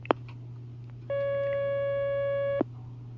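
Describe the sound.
A telephone line tone as a caller is connected: one steady, buzzy tone lasting about a second and a half, with a soft click at its start and end, over a constant low hum.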